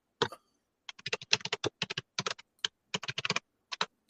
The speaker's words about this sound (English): Oh, y'all heard me typing?